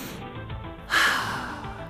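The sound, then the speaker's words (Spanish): A deep breath drawn in on a teacher's cue. After a brief quiet stretch it becomes a steady, breathy hiss that holds to the end. “Toma en tus pulmones todo el oxígeno que puedas. ¿de acuerdo? Respira.”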